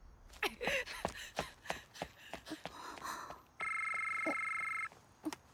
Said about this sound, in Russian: Входящий вызов.